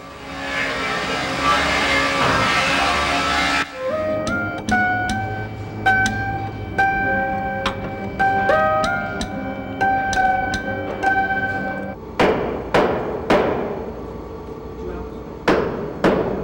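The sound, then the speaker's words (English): Hammering and workshop clatter fill a Steinway piano factory in Astoria, Queens. A dense noisy burst opens, then many sharp, irregular strikes ring with sustained metallic tones, closing with several heavier blows. “But the art of building a piano has another sound entirely. It's cacophonous and noisy, and yet has its own kind of beauty.”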